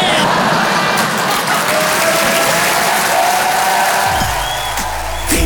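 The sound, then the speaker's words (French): An audience applauds with dense, steady clapping that stays loud throughout, and a voice starts speaking over it near the end. “Voilà, merci, ça c'est les gens bien. Ceux qui n'ont pas applaudi, c'est des jaloux.”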